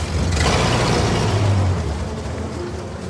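Car driving away in a film scene, a loud, low engine rumble that holds steady and then fades over the final second or so.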